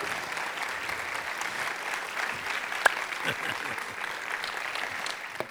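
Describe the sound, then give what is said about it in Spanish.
Church audience applauding after a call to praise God: a dense, steady wash of clapping that holds evenly throughout. “Un aplauso a Dios de honra a él que se lo merece.”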